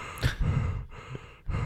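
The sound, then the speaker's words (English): A person imitates people mouth breathing, making a few heavy, breathy huffs and gasps with short pauses between them. “Everyone there was mouth breathing. Yeah. They were all like,”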